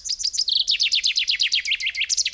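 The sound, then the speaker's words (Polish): A chaffinch sings a rapid, loud series of bright, high chirps, each notes sliding downward, running together into a quick rhythmic trill and ending with a short flourish, heard clearly on its own. “Teraz pora na ziębę”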